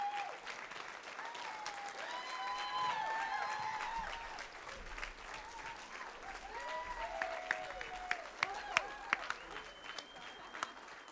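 A church audience applauds its new kids pastors with sustained clapping, mixed with cheers and whoops, lasting the whole stretch.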